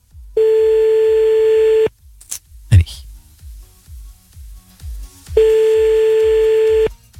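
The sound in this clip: Ringback tone of a telephone call that goes unanswered: two long, steady buzzing rings about three and a half seconds apart. Faint rustling and a brief knock sit in the gap between them.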